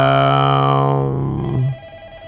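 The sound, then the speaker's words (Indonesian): A telephone rings with a loud, steady, tonal ring that holds for over a second and then cuts off abruptly, with no talk over it. “kita terima telepon dulu saja kalau gitu”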